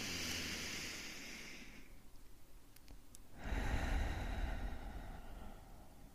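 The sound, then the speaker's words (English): A deep breath is drawn in and let out: a long, airy inhale, a short pause, then a longer, breathy exhale with a soft low rumble, quiet throughout. “taking a deep breath in and a deep breath out”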